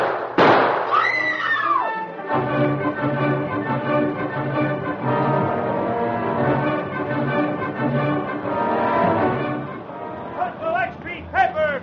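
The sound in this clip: A single sharp gunshot bang rings out near the start of a tense confrontation over crooked gambling, then dramatic music plays on loudly through the rest.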